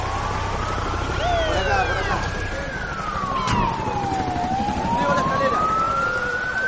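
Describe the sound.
A fire engine's siren wails as it arrives, its pitch sweeping slowly up and down in a loud, continuous tone over a steady low rumble.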